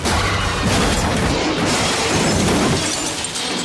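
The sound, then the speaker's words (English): A truck smashing into the back of a bus: a loud, sustained crash of crunching and breaking noise that stays dense and heavy throughout with no pause. “The truck smashes into the back of the bus.”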